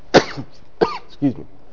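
Three short, sharp coughs, separated by brief quiet gaps, the last slightly lower and more throaty.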